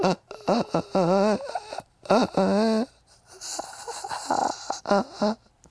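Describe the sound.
A voice imitates the wheezing breath of a collapsed lung, with a run of strained, rasping, wavering gasps and moans in separate bursts with short pauses between them.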